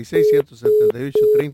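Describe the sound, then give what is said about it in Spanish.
Telephone ringing: three evenly spaced, steady tonal ring pulses, each about a quarter second long and about half a second apart, loud and alone. “atiendo el teléfono, suena el”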